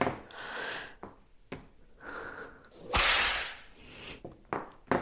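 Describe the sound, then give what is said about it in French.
A whip in a BDSM domination scene gives one sharp, hissing swish midway through, set among quieter breathy rustles and brief clicks. “Tu sens le bout de mon fouet qui caresse ton dos”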